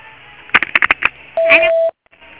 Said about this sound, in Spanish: El usuario no puede recibir llamadas en este momento. Por favor, deje un mensaje en la casilla de voz después de la señal.